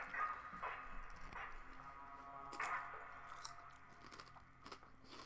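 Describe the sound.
Chips being eaten, faint crisp crunches and chewing bites at irregular intervals, several in all, with no voices.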